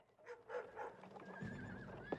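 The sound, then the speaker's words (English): Horses carry about fifty cavalry soldiers down a street, riding three abreast in loose formation. Faint neighing and a few soft hoofbeats blend into a low, steady murmur. “Billy steps forward and looks out of the upstairs window, seeing soldiers approaching on horseback.”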